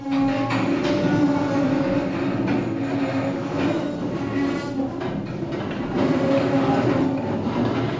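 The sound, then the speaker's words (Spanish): A train rolls past in a continuous loud rumble, steady throughout with a faint clattering rhythm and a thin tonal whine over the low roar. “¿Qué es lo que suena? Pues un tren.”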